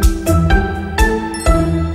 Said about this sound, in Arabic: طيب بعد إذنك أرد على التليفون ده.